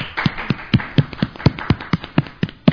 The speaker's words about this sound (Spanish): merece otro aplauso, ¿en serio?